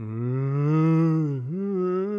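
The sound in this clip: A cow lows in one drawn-out, deep moo with rich harmonics. It dips briefly in pitch near the middle, then swells again, and is heard alone.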